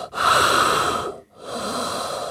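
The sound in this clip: A voice imitates heavy, hissing breathing through gas masks: two long, loud breaths separated by a brief pause, with a rough, wheezy edge.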